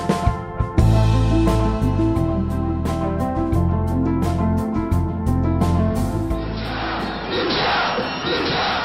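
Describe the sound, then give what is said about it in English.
A large Israeli protest crowd demonstrates in the streets at night. Loud rhythmic beats come first, then a broad, hissing roar of massed voices rises near the end. “This is the sound of the largest protest movement ever by Israelis.”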